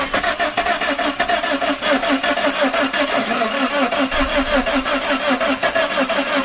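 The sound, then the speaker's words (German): A DeLorean car engine being started in a film scene. The starter and engine churn in a rapid, rhythmic pattern that holds steady throughout. “Da versucht Marty, den DeLorean zu starten, um wieder zurück ins Jahr 1985 zu kommen.”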